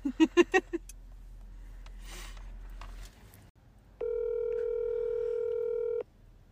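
A telephone call being placed: a quick run of short keypad tones, some faint clicks, then a steady, buzzing electronic ringing tone holding for about two seconds, with no talk.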